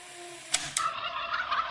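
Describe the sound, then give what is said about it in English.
Turkeys gobble in one short, rapid, warbling burst with two sharp onsets, loud over a hissing background. “Bunch of turkeys.”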